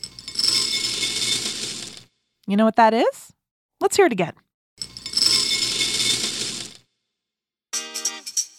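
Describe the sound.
Breakfast cereal is poured into a bowl, a dry rattling rush heard twice, each pour lasting about two seconds, with a person talking in the gap between them.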